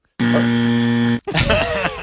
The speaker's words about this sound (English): We added the beep at the end.